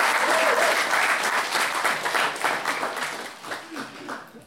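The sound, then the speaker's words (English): Audience applause at a live storytelling and one-liner event: dense, sustained clapping from a crowd that stays full and then gradually thins and fades toward the end. “Big round of applause for that.”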